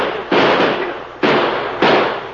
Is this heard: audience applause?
no